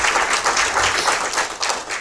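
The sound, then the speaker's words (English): An audience gives a brief round of applause at a regional meeting. The clapping is loud and fairly dense, with slight surges and dips over about two seconds. “So I think we owe a big round of applause and thanks to St. Vincent the Grenadines and to our development partners.”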